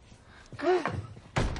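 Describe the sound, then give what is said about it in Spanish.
A bedroom door is shut in a quiet house, ending in a single dull thunk near the end. “cierra la puerta”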